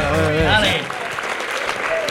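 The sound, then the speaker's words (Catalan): An applause sound effect played during a football chat: a steady, dense crowd clapping that follows a brief harmonic burst lasting under a second. “No tens uns aplaudiments per aquí? Crec que sí.”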